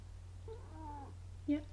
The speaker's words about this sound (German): Ach, das war die Katze. Ich wollte gerade sagen, was war das für ein Geräusch?